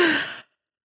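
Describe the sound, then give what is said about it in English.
A person yawning: one short, breathy voiced exhale of about half a second with a low tone sliding slightly downward, heard alone and followed by silence. “I yawned because in anticipation of how bored I'm going to be during this conversation.”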